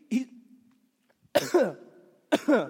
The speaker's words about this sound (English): excuse me, I'm choking.